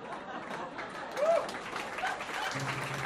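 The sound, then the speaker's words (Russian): Faint applause from a celebrating crowd in a narrated birthday-surprise scene, soft clapping mixed with murmuring chatter, and a low steady hum enters near the end. “Гогот, смех, аплодисменты.”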